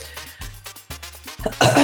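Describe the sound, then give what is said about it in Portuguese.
A few harsh, throaty coughs in quick succession, each a short rough burst, with the final cough the loudest and most forceful, heard alone without speech. “Tossiu antes, né?”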